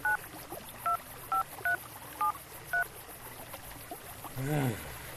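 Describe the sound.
Six evenly spaced telephone keypad tones, short clear beeps, sound while dialing a call that fails to connect, followed by a brief voice at the end.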